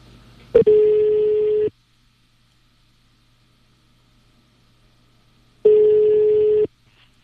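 Two long telephone ringing tones as a call is placed, each a steady buzzing tone about a second long, separated by a gap of roughly four seconds of near silence.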